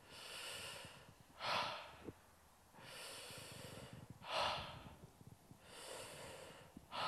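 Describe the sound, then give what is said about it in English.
Slow, deep breathing into the upper chest during a guided meditation: about three full cycles, each a long airy hiss followed by a sharper, forceful puff of breath, with no talking. “So we're gonna breathe into the space that's from the sternum up to the top of the clavicles, the collarbones there.”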